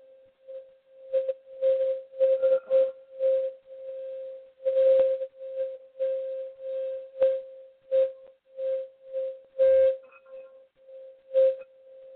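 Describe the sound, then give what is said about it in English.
A steady 528-hertz sine tone played for meditation: a continuous, even, mid-pitched hum with many short crackling knocks and taps scattered over it. “528 hertz. And that goes along with the Savaggio tones, which changes DNA within the body. And that sounds like this.”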